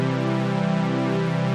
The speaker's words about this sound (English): The attack determines how fast or slow our sound comes in. A very fast attack sounds like this.